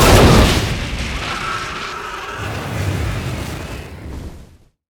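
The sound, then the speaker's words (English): A gasoline-filled metal jerry can explodes after tracer rounds ignite it: a sharp, heavy boom that swells into a long rumbling roar, easing off and ending abruptly near five seconds. “One of the tracer rounds set the gasoline on fire, and the container exploded.”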